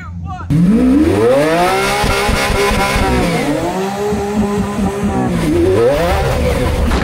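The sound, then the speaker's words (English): A Lamborghini Aventador doing a burnout on a patch of untouched snow, its engine kicking in loudly and revving hard, the pitch climbing and dropping in repeated sweeps with no other sound over it. “So I'm gonna try a crazy burnout in the Aventador and see what happens.”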